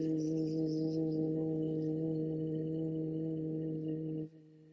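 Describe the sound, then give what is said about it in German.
A soft, steady hum like a buzzing bee, a voiced S-like buzz without the hiss, holds one low pitch throughout and then cuts off abruptly near the end. “ein so ein feines Summen erklingen, wie wenn du ein S würdest machen, aber ohne, dass man das S hört. Also so wie ein Bienchen, das so”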